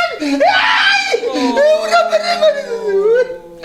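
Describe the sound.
A person cries in loud, drawn-out wailing sobs, the voice wavering up and down in pitch across several breaths.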